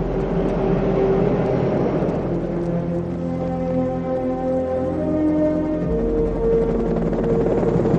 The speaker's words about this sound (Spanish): Al día siguiente, un helicóptero sobrevuela la ciudad.